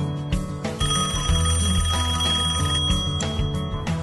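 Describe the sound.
An incoming call sets a telephone ringing with a bright, dense chiming melody that holds steady and loud from start to finish, with no voices.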